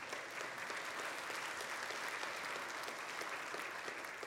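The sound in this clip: Steady audience applause fills the whole stretch, a dense even patter of many clapping hands at a constant loud level with no voices over it.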